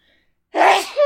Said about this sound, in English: And then I sneezed in her face.